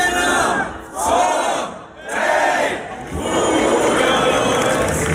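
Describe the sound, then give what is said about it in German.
A festival crowd cheers at Lullusfest in Bad Hersfeld. The cheer is a loud, sustained roar that swells three times, with brief dips between the swells. “Typisches Geräusch ab heute in Bad Hersfeld. Ja, es ist wieder die Zeit, es ist Lullusfest.”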